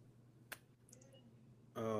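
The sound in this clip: A single faint, sharp computer mouse click, followed by a quiet pause before a voice starts talking.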